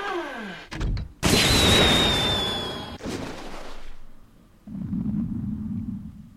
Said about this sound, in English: Let's go ahead and hit the space bar here to launch this missile.